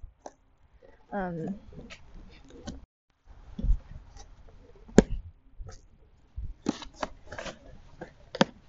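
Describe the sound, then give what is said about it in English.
Ripping, crinkling and tearing as someone fights to open a package sealed with several layers of tape. Sharp, irregular bursts of tearing and rustling come and go, with a brief vocal sound early on. “how do I bloody open this? There's like five tapes on this.”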